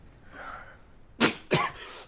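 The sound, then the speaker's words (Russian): A young man coughs into a handkerchief, two sharp, fairly loud coughs in quick succession after a quiet stretch. “Парень кашляет, закрывая рот платком.”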